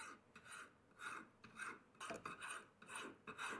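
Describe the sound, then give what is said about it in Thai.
A fine file rasps across a bangle to smooth its surface and sharpen its edges. Its rhythmic back-and-forth strokes are faint and repeat many times, with no voices. “ในขั้นตอนนี้เราจะใช้ตะไบละเอียดแล้วนะครับ”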